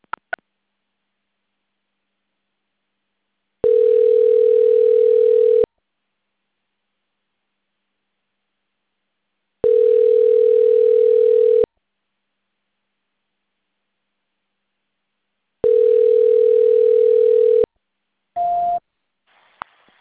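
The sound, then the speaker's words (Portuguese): A telephone line tone sounds while a dropped call is being transferred: three steady, low, buzzing tones of about two seconds each, evenly spaced by silence, then a brief higher tone and a few faint clicks, with no talk. “só um minutinho que caiu a ligação, vou transferir, tá? Ok. Transferência.”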